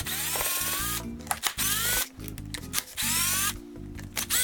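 Whining drive of a screw gun fitted with a long, deep drill bit, running in several loud bursts broken by brief pauses as the trigger is eased off, with a buzzing motor tone and no talk.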